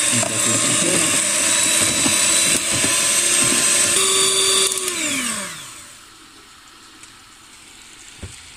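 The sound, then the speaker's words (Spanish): An electric mixer whirs loudly and steadily while an infusion is blended into ice cream, then its whine falls in pitch as it spins down and stops, leaving near quiet with a couple of faint clicks. “Luego de que ya esté realizada, la vamos a a mezclar directamente con nuestro helado. Vamos a mezclar un poco”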